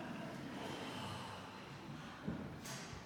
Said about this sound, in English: Shall we together take a deep cleansing breath after those readings?